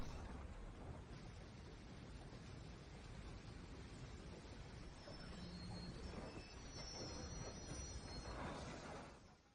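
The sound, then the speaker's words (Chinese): A train pulling into a station, heard as a faint, steady rolling rumble with thin high wheel squeals appearing toward the end. “现在时间是19:18，19次班车将会在1分钟后进站，请需要的旅客及时上车。”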